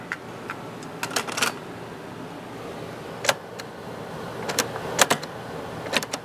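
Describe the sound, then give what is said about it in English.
Cassette being loaded into a player: scattered sharp plastic clicks and clatters, some in quick clusters, over a low steady hiss. “Get the cassette going.”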